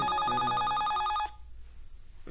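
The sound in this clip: A telephone rings with a loud, rapid warbling trill that repeats evenly for just over a second, then cuts off and leaves faint background hiss.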